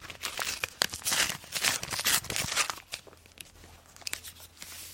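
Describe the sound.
A paper envelope being opened, with fairly quiet crinkling, rustling and tearing in several uneven bursts that thin out toward the end, and no talking.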